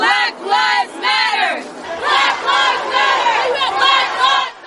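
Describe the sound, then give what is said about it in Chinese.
Protest crowd at a Black Lives Matter march in the United States shouting in unison: loud, rhythmic chanting with repeated phrases that swell and fall. “呢个系一个全美国各地都能够听到嘅呐喊。”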